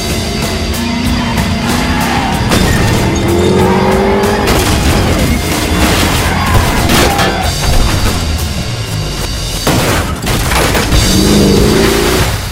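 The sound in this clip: A car engine roars at full throttle, loud and continuous, with tire squeals and sharp jolts breaking through the sustained acceleration.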